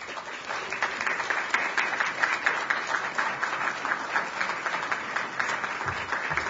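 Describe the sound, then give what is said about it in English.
Audience applause welcomes a speaker at a library event for its LGBT collections: dense, steady clapping from many hands that holds at an even level from start to finish, with no voices. “So this is a hero. Give him a great hand.”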